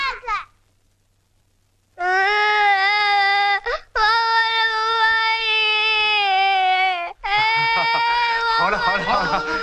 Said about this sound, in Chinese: 来来，别哭别哭啊！